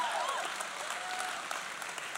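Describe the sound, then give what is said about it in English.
Church audience applause breaking out after someone eats a bite of a chicken sandwich: dense, steady clapping from many hands holding an even level throughout, with no talk over it. “biggest round of applause you've ever got just for eating a bite of a sandwich”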